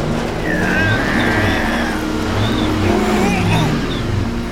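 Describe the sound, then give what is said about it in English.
A car engine runs loud and steady as the driver hits the gas. Its tone wavers throughout without a clear climb in pitch. “Put it in drive. Ready to hit the gas in 1, 2, 3.”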